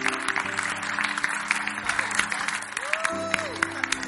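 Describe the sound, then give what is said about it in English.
Applause from a church audience, a dense, steady clatter of many hands clapping that holds evenly for the whole stretch without breaks. “Oh, keep clapping. Put your hands together.”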